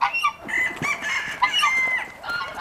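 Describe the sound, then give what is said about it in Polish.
Chickens in a farmyard henhouse cluck continuously, many overlapping calls forming a dense, busy chorus with no talk. “możemy jak najbardziej zajść do zagrody, zobaczyć kurnik i posłuchać dźwięków zagrody.”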